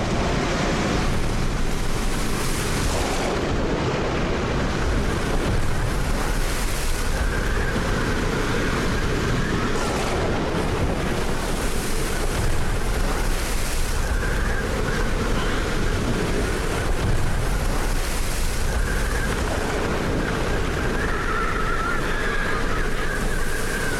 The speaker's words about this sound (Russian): Шторм в океане.